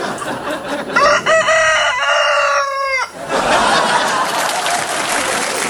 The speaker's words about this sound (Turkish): Bu sesi duyduğunda böyle içinde böyle bir kıpırtı oluyorsa demek ki ilk hayatında sen tavuktun.